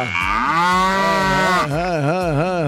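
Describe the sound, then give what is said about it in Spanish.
A cow in heat moos in two drawn-out, low, harmonic calls, the first steady and the second wavering up and down in pitch, loud and with no talk. “Uf, esa vaca está en sus días. Uf, necesita un toro.”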